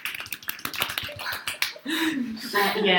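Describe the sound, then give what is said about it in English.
A few people clap in a quick burst of light, crisp hand claps, followed by talking. “what you just heard is us clapping really”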